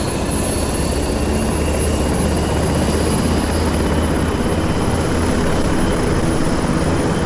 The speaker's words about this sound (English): We are just witnessing the startup and the takeoff of an NH90. Impressive.